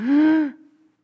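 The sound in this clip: A human voice imitates a newborn baby's first breath with a single drawn-out voiced cry. It holds a fairly steady pitch for about half a second, then drops away into a faint trailing tail.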